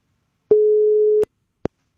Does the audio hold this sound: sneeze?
no